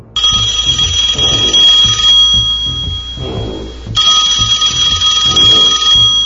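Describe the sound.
A custom mobile phone ringtone plays loudly: a bright electronic ringing tone over a pulsing low beat. The ringing drops out briefly midway, then comes back.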